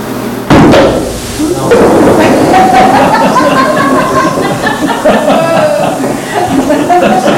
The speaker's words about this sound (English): So, this is silly putty. Now, what I'm going to do is I'm going to hit it with a hammer.